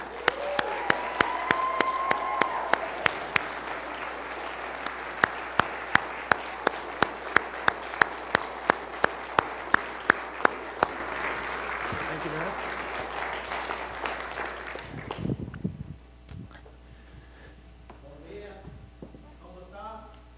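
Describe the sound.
Loud, sustained audience applause welcomes two guests, a steady wash of clapping with sharp individual claps standing out. It lasts about fifteen seconds before dying away as a voice begins speaking.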